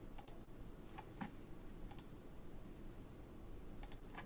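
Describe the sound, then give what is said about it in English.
Faint clicks and keystrokes come from a computer keyboard and mouse while a live stream platform is being set up. A few scattered, sharp taps stand apart from near-silence, with no talk. “I had to figure out the right buttons to click there.”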